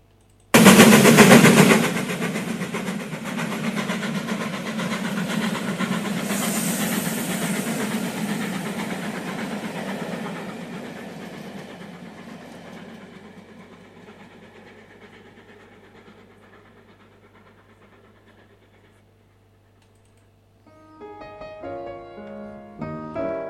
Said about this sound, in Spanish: Como suena este tren, en cuanto suenas, sales al pasillo y te dejas sordo.